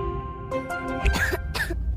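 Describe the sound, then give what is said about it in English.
A child coughs in a commercial for a children's cold medicine: two short, raspy bursts close together, following a soft sustained musical tone. “What about my cough?”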